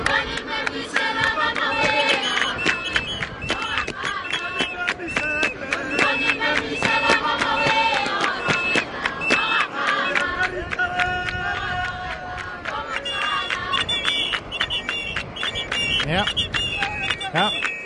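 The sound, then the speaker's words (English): A crowd in Botswana chants in unison to greet Michelle Obama on her arrival. Many voices repeat a rhythmic, sing-song cheer with her name, loud and sustained throughout. “What they're chanting in the background is Obama, yay, lay, lay. Obama, yay, lay, lay.”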